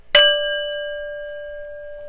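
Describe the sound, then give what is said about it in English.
A singing bowl struck once, giving a bright metallic strike that settles into a long, pure ringing tone with shimmering overtones, slowly fading and heard alone. “Allow the sound of the bowl to take you on an inward journey.”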